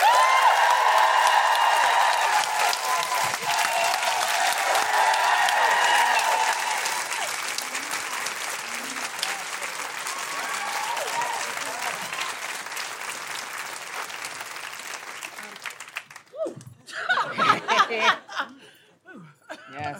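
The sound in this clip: An audience applauds loudly, cheers and whoops to welcome a comedian onto the stage at a comedy show. The roar holds, then slowly fades over about fifteen seconds before a voice starts talking amid scattered laughter.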